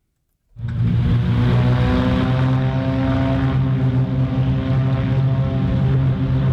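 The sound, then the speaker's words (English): Propeller engines of Beechcraft Bonanza airplanes roar as they take off from a regional airport in La Crosse. The loud drone starts abruptly after a brief silence, then holds a steady buzzing hum with strong low harmonics. “That's the sound of Beechcraft Bonanzas taking off from the La Crosse Regional Airport on Saturday on their way to Oshkosh.”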